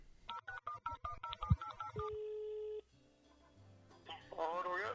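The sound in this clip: A telephone call being placed: a rapid run of dialing beeps, then a single sustained ringing tone, after which a voice answers on the line.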